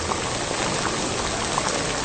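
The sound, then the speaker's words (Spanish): Chicken and potato fry in a pan with a dense, steady sizzle and crackle that stays even at moderate loudness throughout, with no voices. “voy a aventar primero la papa y la voy a poner a freír junto con el pollo”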